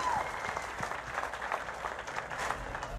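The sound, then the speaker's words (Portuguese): An audience applauds with steady, even clapping that stays faint throughout and cuts off abruptly at the end. “Uma salva de palmas, milionário.”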